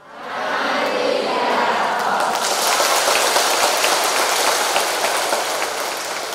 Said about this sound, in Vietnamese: Thấy dễ thương không? A Di Đà Phật, già trẻ gì cũng vỗ tay hết.